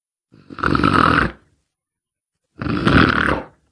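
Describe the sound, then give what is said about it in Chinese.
A human voice imitates the snoring of a man asleep in a chair with his head bowed: two loud, rough, rumbling snores, each about a second long, separated by a long silent pause. “白眉徐良靠着椅子低着头睡着了，哈喇子也下来了，打呼噜声也出来”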